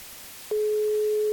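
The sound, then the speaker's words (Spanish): An outgoing telephone call produces a ringback tone: after half a second of faint hiss, a steady mid-pitched tone starts abruptly and holds unbroken to the end. “Venga, a ver si suerte esta vez. Ahí está, un tono.”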